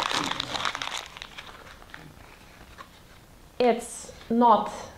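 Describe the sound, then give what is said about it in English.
A piece of paper is crumpled by hand, making a short burst of crinkling rustle at the start. Quieter rustling follows, and voices are heard later. “It's just a piece of paper which has been crumbled, but the nature of it doesn't change.”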